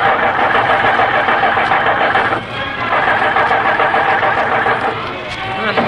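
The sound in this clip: A bus engine cranks without catching because the fuel tank is empty: a continuous rough, mid-pitched churning rumble with a brief dip partway through, steady and loud throughout.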